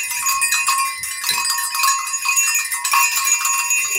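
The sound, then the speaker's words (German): Six small herd bells of different sizes jingle together in a bright, continuous metallic tinkling, with high ringing tones sustained throughout and no voices. “das sind wahrscheinlich die Glöckchen von einer kleinen Herde. Mhm. Also es ist so, dass hier sind insgesamt 1, 2, 3, 4, 5, 6 Glöckchen dran. Man hört das auch.”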